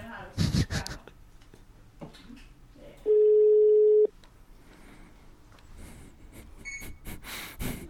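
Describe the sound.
Ringback tone heard while placing a telephone call: one steady, loud, mid-pitched tone lasting about a second, with people talking and breathing before and after it.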